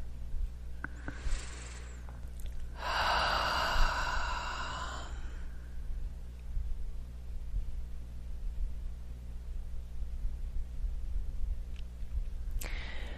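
A deep breath taken during a guided breathing session: a brief airy breath, then a longer, fuller, sigh-like breath of about two seconds, over a steady low hum.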